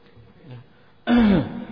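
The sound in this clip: A single deliberate throat clearing, made as a polite warning to someone passing in front of a person at prayer, bursts out loudly and briefly after a quiet stretch.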